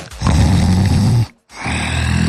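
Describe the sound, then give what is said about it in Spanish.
A human voice imitates a tiger's snoring growl with two loud, rasping, low growling breaths. The first is long, and a second one follows after a brief silent pause. “A ver, ¿cómo hacen los tigres?”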